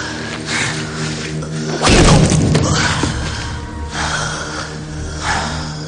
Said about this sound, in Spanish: Golpea al híbrido una y otra vez hasta tumbarlo sobre la mesa de reuniones.